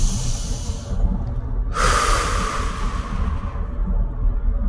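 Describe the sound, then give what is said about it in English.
A single deep breath during a guided gratitude meditation: one long, airy inhale lasting about two seconds, heard alone over a low, steady background hum. “Take a deep breath.”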